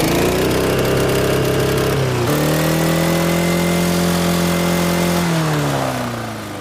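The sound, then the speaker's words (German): A lawn mower engine is held against its rev limiter, producing a loud, continuous, buzzing drone. Its pitch steps down slightly a couple of times, and it stays high-revving and steady throughout. “Ich habe gar nicht gewusst, dass ein Rasenmäher einen Begrenzer hat. Puh, das gibt's. Aber nicht bei allen, aber bei dir schon. Start mal an. Jawohl. So, und jetzt Begrenzer.”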